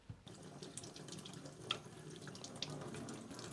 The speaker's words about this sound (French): si, quand même, je la rince un peu, mais des fois qu'on boufferait du sable.